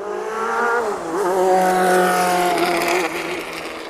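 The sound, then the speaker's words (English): A car driving back and forth at an event with spectators watching, its engine note rising and falling as it revs and shifts direction, loud and continuous with no talk. “again, the car is just going back and forth, so we've got some repetition.”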